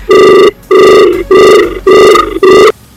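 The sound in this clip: Telephone ringing on a radio show's call-in line as a listener phones in, a loud electronic ringtone repeating in short, even bursts with brief gaps, heard alone without talk.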